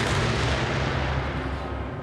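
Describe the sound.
Heavy weapon test firing by the Swedish military: a loud, booming roar of gunfire that fills the whole clip without a break and eases slightly toward the end.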